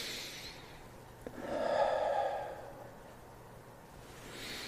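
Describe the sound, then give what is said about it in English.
A single sniffing inhale through the nose, taken while smelling lavender oil put on the skin. It is soft and breathy, swelling and fading over about a second against quiet background hiss. “And what I'll do is I'll put it on myself first. And I'll breathe it.”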